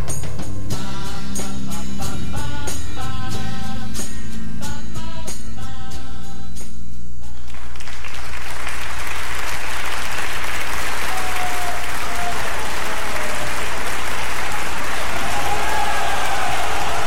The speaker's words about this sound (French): Cette ovation pourrait être la vôtre.